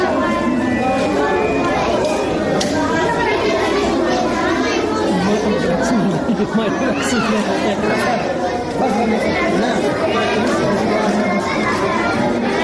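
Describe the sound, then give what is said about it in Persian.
Children chattering together in a newly opened library in Nangarhar, many overlapping young voices talking and calling out in a lively, continuous babble from start to finish. “این صدای کودکانی است که در کتابخانه تازه تأسیس شده به همکاری کشور ژاپن در ننگرهار گرد هم آمدند و به خوشحالی کتاب می‌خوانند.”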